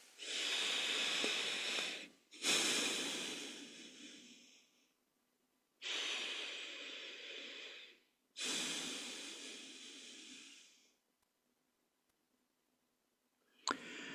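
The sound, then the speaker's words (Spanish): Deep breaths taken during a guided relaxation exercise: two slow breaths, each heard as a pair of long, airy rushes with a short pause between them, and a third breath beginning at the end. No one speaks. “Hacemos un par de respiraciones profundas.”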